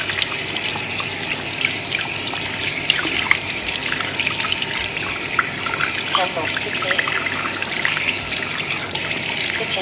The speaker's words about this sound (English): now I'm gonna turn the water on and start washing my hands.